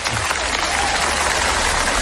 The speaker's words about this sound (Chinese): 谢谢大家雷鸣般的掌声。